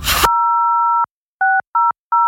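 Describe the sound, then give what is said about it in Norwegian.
Telephone keypad tones sound as a number is dialed. A brief burst of noise comes first, then one long dual-pitched tone and three short, evenly spaced beeps. “Ring Viking redningstjeneste på 06000.”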